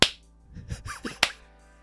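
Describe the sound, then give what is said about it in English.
Two sharp hand claps, made to cleanse the air, one at the very start and a second a little over a second later, each short and crisp. “Listener, you join me in clapping your hands like”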